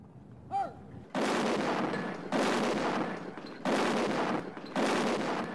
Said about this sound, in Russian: С десяток булыжников, словно пушечные ядра, просвистели в воздухе.